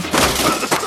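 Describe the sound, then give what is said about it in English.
Wood splinters and breaks during a bathroom demolition in a short, harsh burst of crackling and cracking, with a second sharp crack near the end, heard without talk. “This is the sound of renovating your bathroom. The messy, time-consuming, expensive way.”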